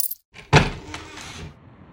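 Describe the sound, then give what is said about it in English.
Coins pulled out of a pocket, heard as a quiet sharp jingle followed by softer rustling and faint clinks that fade out. “pulled some coins out of his pocket.”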